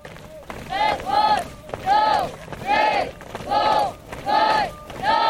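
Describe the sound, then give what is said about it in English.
Hundreds of young army recruits marching in a big open field under a hot sun, chanting in unison. A steady, even beat of loud shouted calls repeats about every second. “Hundreds of young recruits are marching in a big open field under the scorching sun.”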